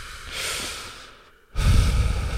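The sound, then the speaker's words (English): A person takes a deep breath: a long, airy inhale, a brief pause, then a louder, rougher exhale that trails on to the end. “So, I take a deep breath.”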